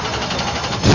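A racing car engine at a speedway roars at full throttle, a dense, steady low drone that swells louder in the final moment.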